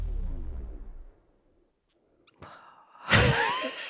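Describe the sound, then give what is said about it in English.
An odd, unusual breath: breathy noise fades into near silence, then a brief click leads into a loud, sharp, gasp-like burst of air that trails off slowly. “That was a weird breath for you. Sorry, guys. Today. That was very odd.”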